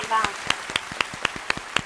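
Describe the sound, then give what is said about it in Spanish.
Audience clapping to send off a guest on a Spanish radio show: sharp, evenly spaced claps in a steady rhythm, with softer claps between them and a brief voice at the very start. “A dar un aplauso para despedirte.”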